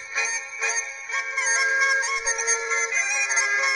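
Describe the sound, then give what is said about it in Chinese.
An electronic timer alarm plays a melody when time is up: a smooth, continuous tune of clear tones at an even level, with no other sound. “当时间到的时候，这悠扬的音乐就会开始播放”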